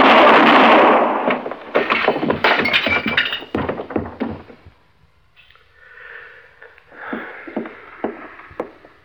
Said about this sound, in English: Well, anybody can shoot a man, Chester.